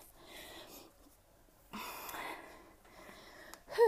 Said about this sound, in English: Okay, let me breathe in a little bit.